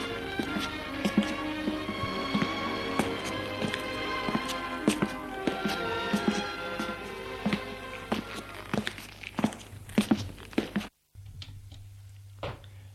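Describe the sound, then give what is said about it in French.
Footsteps on stairs: many thudding steps in an uneven rhythm over sustained tones. The sound briefly cuts out near the end, then a low steady hum remains. “Des pas dans les escaliers. Merde, il est trop tard.”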